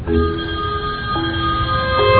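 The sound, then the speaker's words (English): A telephone rings with a steady electronic tone that holds without a break and shifts in pitch partway through, fairly loud. “Did you do that? No, that's actually the phone.”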